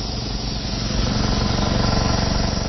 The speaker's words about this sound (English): Once this charges, we'll turn on the methoxide mixer.